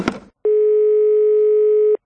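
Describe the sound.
A steady telephone dial tone, heard while placing a call to a pizza shop, holds an unbroken pitch alone for about one and a half seconds after a short rustle.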